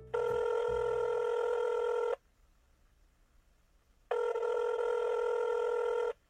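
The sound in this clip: A telephone rings for an incoming call. Two loud electronic rings, each about two seconds of steady high trilling tone, are separated by a two-second pause, with no voices.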